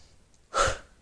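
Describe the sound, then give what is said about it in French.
A deep, dynamic breath as part of a relaxation exercise: one loud, forceful rush of air lasting under half a second, standing alone against near silence. “Profonde inspiration et courte expiration.”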